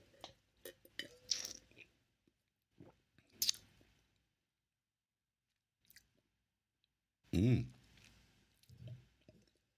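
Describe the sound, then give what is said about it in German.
Chewing while tasting food: sparse, quiet, wet mouth clicks and squishy bites separated by silent gaps, with a short vocal sound breaking in later. “So, jetzt bin ich gespannt. Ich koste mal.”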